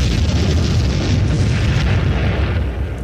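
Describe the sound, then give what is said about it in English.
A bomb explosion sound effect booms as a deep, dense roar that stays loud for nearly the whole clip, then eases slightly at the very end. “It's the bomb.”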